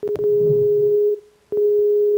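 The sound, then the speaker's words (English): Telephone ringback tone on a call: a steady single-pitched tone sounding in two long bursts separated by a short gap, with faint rumbling noise under the first burst. “It's ringing.”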